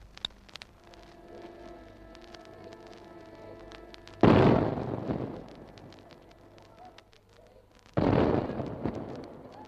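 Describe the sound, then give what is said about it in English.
Two heavy artillery blasts from a 21-gun salute fired by an army field artillery battery, each a sharp, loud boom that decays over a second or two, spaced about four seconds apart over a low steady hum. “And now, on their behalf, The army gives its solemn salute of 21 guns.”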